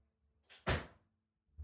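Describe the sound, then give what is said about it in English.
A window is shut: a brief scraping movement, then a single solid thud that dies away quickly into quiet, with a faint knock at the very end. “Let me shut the window here.”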